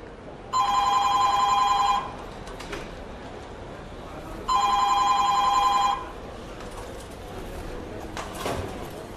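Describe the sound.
A telephone rings during a phone call in two long electronic bursts, each about one and a half seconds, separated by a pause of faint background noise.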